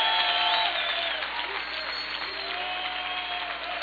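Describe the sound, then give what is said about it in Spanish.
A church audience applauds in a steady, continuous wash of clapping at moderate-to-faint level, with voices rising over it and the applause easing slightly toward the end. “¿Cuánto dan un aplauso?”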